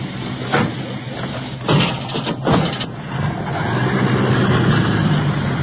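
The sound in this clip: An ambulance engine rumbles as the vehicle gets underway to the hospital with a badly injured man aboard, a low, muffled drone that grows steadily louder in the second half.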